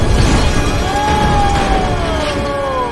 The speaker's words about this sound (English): The trailer explodes, sending Max